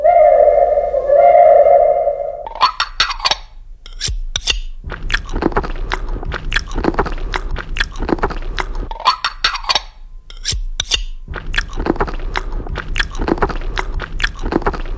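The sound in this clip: Crunchy, wet chewing of food during a meal: many repeated bites in rhythmic bursts separated by short pauses, loud and close, following a brief steady tone at the start.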